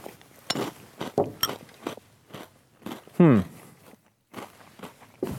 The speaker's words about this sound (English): They taste odd, I will say. That does not taste like a normal Reese's product. Let me try one more time.